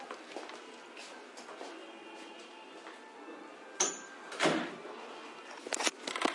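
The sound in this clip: A door is closed gently: a few soft clicks and light knocks sound near the end, over quiet background noise.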